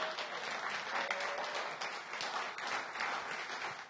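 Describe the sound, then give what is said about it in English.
An audience applauds to welcome a guest, a steady, fairly faint patter of many hands clapping that holds throughout. “Yeah, give him a hand of welcome.”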